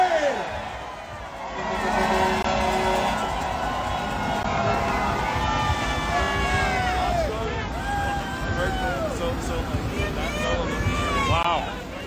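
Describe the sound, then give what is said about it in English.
A crowd at the 2022 Canadian trucker convoy protest cheers for the truckers, many voices shouting and whooping together over continuous babble, with a few louder swells in the chorus. “Okay, finally, three cheers for the truckers after me. Hip hip hooray! Hip hip hooray! Hip hip hooray!”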